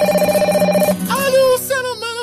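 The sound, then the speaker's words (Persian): A telephone rings with a steady, bright electronic tone for about a second before giving way to a melodic voice. “تو خونه بودیم که او تلفن زنگ زد”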